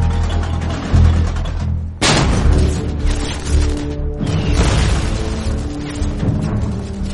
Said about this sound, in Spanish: Con mapas detallados de la campiña francesa, los proyectiles estadounidenses comienzan enseguida a caer en las posiciones alemanas.